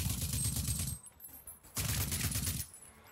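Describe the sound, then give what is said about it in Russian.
Rapid gunfire from shooting enemies in the video game Rage 2: two dense bursts of fast, crackling shots separated by a brief quieter gap. “Занимаешь удобную позицию и тупо всех отстреливаешь.”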